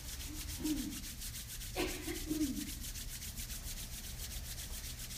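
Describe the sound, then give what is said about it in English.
Hands rubbed together deeply and quickly to build heat during a guided chakra relaxation: a soft, steady swishing friction, faint and unbroken, with no talking. “So let's create some warmth with your hands, rubbing them deeply, quickly, creating some heat.”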